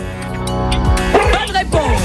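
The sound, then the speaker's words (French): A dog barks a few times in short, yipping bursts, each dropping in pitch, mixed under voices and a steady tonal background. “C'est un chien derrière.”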